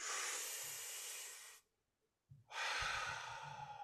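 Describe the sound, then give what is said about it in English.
A deep breath in, taken on a count of three: a long, loud, airy rush of breath lasting over a second, a brief near-silence, then another strong, breathy hiss. No one speaks. “On the count of three, can we just take a deep breath? Just on a 1, 2, 3.”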